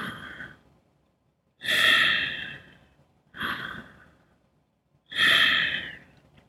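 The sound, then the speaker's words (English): Slow breathing with a slight pause between each inhale and exhale, forming two full breath cycles. Soft, airy rushes alternate between shorter and longer, separated by quiet gaps. “you probably notice that you breathe with a slight pause or hesitation between inhale and exhale. So maybe something like this.”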